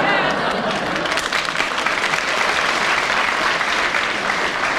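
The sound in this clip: A studio audience applauds with dense, continuous clapping that stays loud and steady for about five seconds.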